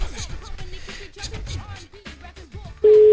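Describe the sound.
An unanswered telephone call ends in a single loud, steady tone near the end. Before it there are voices.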